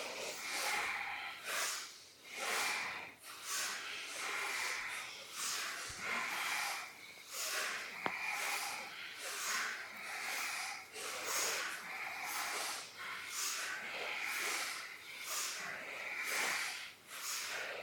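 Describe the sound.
Deep rhythmic breathing during a breathing exercise focused on the heart center: many forceful, hissing breaths repeat at a steady, quick pace, each a short airy rush of roughly equal loudness.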